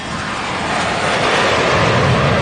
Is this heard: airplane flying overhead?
yes